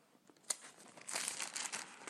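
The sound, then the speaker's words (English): Soft rustle and crinkle of paper pages as a Bible is leafed through by hand, faint and papery, with a few sharper flicks among many small rustles and no talk. “Excuse the noise of the pages as I fumble through them.”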